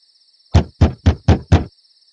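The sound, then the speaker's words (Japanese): Five hard knocks on a window in a quick, even rhythm, each a sharp loud thump, over a faint steady high tone. “激しく窓を叩く音がして”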